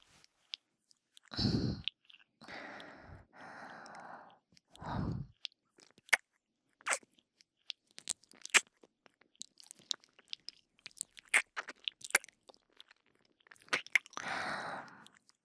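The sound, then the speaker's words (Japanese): Wet ASMR licking of an ear: many soft smacks, clicks and slurps, spaced irregularly, with a few broader wet bursts and quiet gaps between them. “耳を舐められてる音を聞きながら、”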